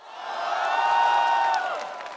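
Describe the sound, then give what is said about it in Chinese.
An audience cheers, whoops and applauds at a Huawei launch event as the Kirin 9050 Pro chip is unveiled. The excited cries swell into a loud peak and then gradually fade. “超级快、超级智能、超级酷，三个 Super 引爆现场掌声与欢呼。”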